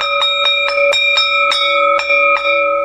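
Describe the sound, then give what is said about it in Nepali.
A school bell rings at the end of a classroom lesson, loud and metallic, with many rapid repeated strikes over a steady sustained ringing tone. “ओहो, घन्टी पनि बज्यो।”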